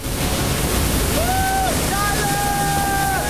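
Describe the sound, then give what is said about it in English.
The roar of ocean surf as a gigantic wave is ridden: a dense, steady rush of breaking water fills the whole clip, with faint sustained tones partway through. “One of Bodhi's friends rides a gigantic wave.”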